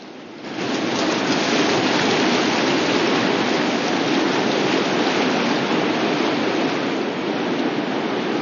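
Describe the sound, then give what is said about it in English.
River rapids rush as paddlers head downstream into churning white water. After a brief quieter start, the roar swells into a loud, steady hiss that continues without a break. “It's not long before they enter another set of rapids.”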